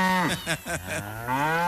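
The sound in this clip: A cow moos at milking time with a long, loud, harmonic bellow that wavers and dips in pitch, then swells and rises again toward the end.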